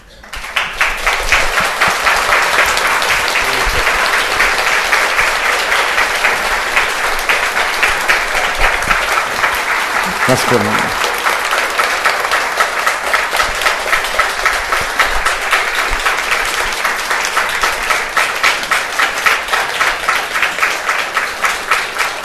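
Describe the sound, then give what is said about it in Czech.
Audience applause: a dense, loud wash of clapping that stays strong and steady for over twenty seconds. “A počkejte, ať ještě trošku zbyde toho tleskání.”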